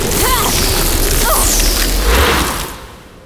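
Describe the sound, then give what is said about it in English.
A powerful blast strikes a barrier with a loud, sustained booming roar that rushes on for over two seconds, then quickly fades away. “I'll blast my way through this thing.”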